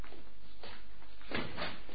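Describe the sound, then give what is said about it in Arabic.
A wooden window in a mashrabiya being opened: a few short knocks and scraping creaks, with a louder rattling burst past the midpoint and a softer one near the end. “طب افتحي لنا الشباك ده شوي.”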